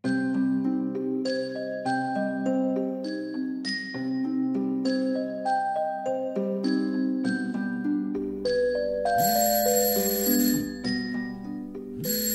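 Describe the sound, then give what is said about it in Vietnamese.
A phone alarm rings at the bedside, playing a repeating melody of bright, bell-like tones in a steady rhythm. It sounds alone throughout, and a low hum and a harsher high tone join near the end. “Đang mơ màng ngủ, tôi bị đánh thức bởi tiếng chuông báo từ cái điện thoại để đầu giường.”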